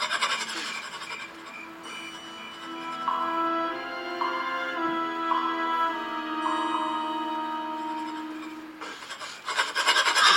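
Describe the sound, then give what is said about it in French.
A metal file rasping on prison bars, with harsh scraping strokes at the start and again at the end and a steady, sustained tonal drone in between. “Voici une lime pour essayer vos barreaux.”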